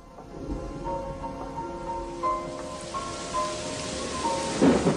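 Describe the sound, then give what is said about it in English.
Heavy rain hammers down on a grim prison building, a dense continuous hiss of falling water with a few low thunder rumbles and a louder surge near the end. “Next morning, rain hammers down on the grim, forbidding prison building.”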